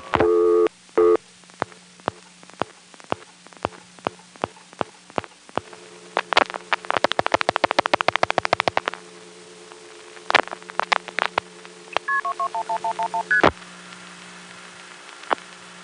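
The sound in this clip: Telephone dialing of a long-distance number and the call being ticketed on an exchange: a long run of sharp clicks and pulse bursts over a steady hum, then a quick run of short tones stepping downward in pitch.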